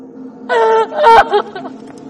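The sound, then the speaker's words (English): A woman, alone in the woods and bent over, wails in two drawn-out, strained cries, loud and tremulous, followed by quieter broken breaths. “Smash cut to Lena, alone, in the woods, bent over, wailing.”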